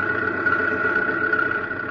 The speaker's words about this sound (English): the big tractor rumbles out through the airlock with Dale and Zarkov